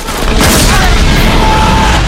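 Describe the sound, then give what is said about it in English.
A gas tank behind a group of soldiers explodes after being shot, producing a loud, sustained blast with a deep rumbling roar and a rushing wash of noise that holds steady for the whole moment. “He shoots a gas tank behind the soldiers on the ground.”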